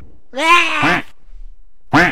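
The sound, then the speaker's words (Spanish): A small duck gives two loud, nasal quacks: the first is long and wavering, and the second is short. Faint soft clicks are heard between them. “Ese es un pato. Es el patito.”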